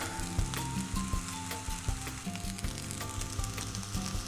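A homemade sausage roll fries in a pan that is starting to smoke, giving a faint, steady crackling sizzle with small irregular pops throughout.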